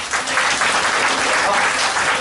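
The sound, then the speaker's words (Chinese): Enthusiastic applause from an audience, dense steady clapping that stays loud and even for the whole stretch. “想知道的话，告诉我一个很热情掌声好”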